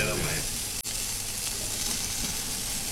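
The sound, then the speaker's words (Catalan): Cooked octopus dressed with olive oil and salt sizzles on a charcoal grill. The loud, dense hiss runs unbroken through the whole stretch, with only a momentary dip near the start. “Que m'agrada com sona a mi la brasa.”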